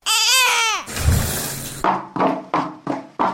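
A brief high infant cry or wail opens, then a rushing shower-like hiss, followed by several evenly spaced sharp knocks like a woman's footsteps.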